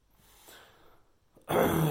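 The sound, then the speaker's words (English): A woman breathing: soft, faint breaths at first, then a much louder, breathy exhale near the end. “She's right there. You can hear her breathe. So you know she's real, huh? Not a doll.”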